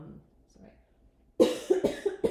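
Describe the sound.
Several quick, harsh coughs from a tickle in the throat come in a tight run after a near-silent start. They are loud and irregularly spaced.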